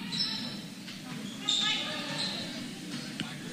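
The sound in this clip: A basketball is dribbled during the third quarter of a basketball game. A few faint bounces sit under a steady murmur of crowd noise and talk.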